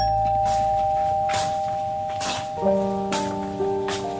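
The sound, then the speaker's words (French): A doorbell rung at a front door, its chime notes entering about halfway through over a steady, rain-like hiss, with a few ringing tones layered on each other. “Des journalistes sonnent à sa porte.”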